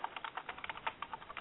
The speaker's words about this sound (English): Who is typing?